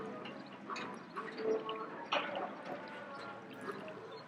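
Spirulina liquid drains through a filter mesh, trickling and dripping with irregular small splashes. It stays fairly faint, with a few louder spatters along the way.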